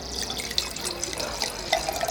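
A drink being poured, a continuous splashy trickle of liquid with small bubbling gurgles at an even, moderate level and no voices.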